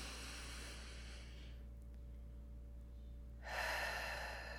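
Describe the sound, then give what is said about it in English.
Soft, airy breathing with a hiss of air that stops, leaves a quiet pause, then returns as a deep breath drawn in, all faint and unaccompanied by talk. “So you take your higher self's hand and you both take in a deep breath together.”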